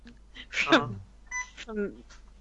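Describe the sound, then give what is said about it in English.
Electronic beeping, like hospital monitoring equipment, gives short steady-pitched tones that sound alongside a person talking. “Oh, wait, that beeping you are in the ER, aren't you?”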